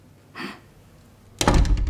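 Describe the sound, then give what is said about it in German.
A door being closed behind a departing visitor: a soft brushing sound comes first, then a pause, then a loud, solid thud with a brief rattling tail. No voices are heard. “Ich schließe die Tür hinter Matej Hamidovic.”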